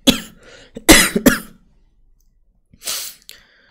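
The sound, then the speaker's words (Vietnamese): A few sharp coughs, closely spaced and fairly loud, then a pause and one more rough cough with a faint throat sound after it. “Mình ho thì mình đọc là mình cố nhịn đấy, mình ho mà.”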